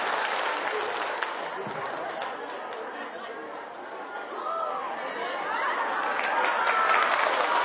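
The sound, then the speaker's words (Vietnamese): At a rose-pinning ceremony at a Buddhist monastery, an audience applauds to welcome a child singer. Steady clapping blends with crowd chatter and swells louder toward the end. “Xin mời chúng ta có một vòng vỗ tay để chào đón Bé Anh Trường.”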